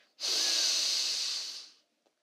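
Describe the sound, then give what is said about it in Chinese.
A deep, slow inhalation during a children's meditation breathing exercise: one long, airy, hissing breath drawn in steadily for about a second and a half, moderately loud and alone, tapering off at the end. “我们再来一次，深深的吸气。”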